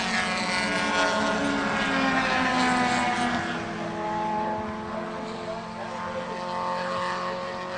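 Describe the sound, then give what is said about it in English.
Super Touring Lite race cars pass nose to tail on a racetrack at a road-racing championship, a dense, loud engine drone with wavering pitch that eases slightly toward the end. “Look at him go by us right now. They are nose to tail almost.”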